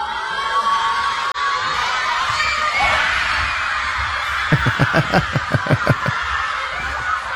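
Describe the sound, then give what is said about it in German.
Schoolchildren at a school viewing of a World Cup match cheer at kickoff. A steady crowd murmur gives way to a quick run of rhythmic claps near the end. “deshalb veranstalteten viele Schulen Public Viewings oder sagen wir besser School Viewings. Die Kids konnten freiwillig früher kommen und nach dem Spiel startete dann offiziell der Unterricht. Beim Anpfiff klang das Ganze so.”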